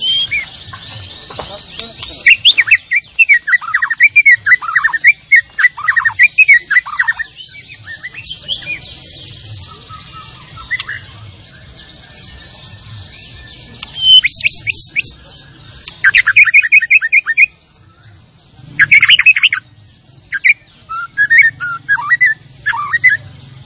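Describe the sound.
White-rumped shama song: bright, varied whistles and quick chirps delivered in repeated bursts of rapid phrases with short pauses between them, over a low steady hum.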